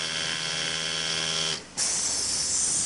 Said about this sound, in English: lean over sewing machines, driving fabric through automatic stitchers.